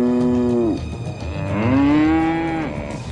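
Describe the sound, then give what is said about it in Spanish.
Cattle moo, from a herd of about a hundred cows that has invaded a house at midnight: two long, loud, low bellowing moos, each holding its pitch and then trailing off. “a medianoche, la casa de Susana fue invadida por 100 de vacas”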